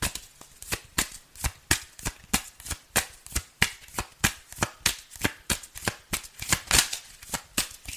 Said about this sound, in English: I'm just the person sitting here reading some tarot cards.